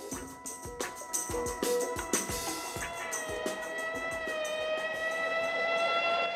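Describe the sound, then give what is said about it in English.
Sirens from a police car and an ambulance speeding along a wide main road wail in a sustained, faint tone, with a few quick clicking taps early on. “He steps into the shaded doorway of a building while a police car speeds past, followed by an ambulance.”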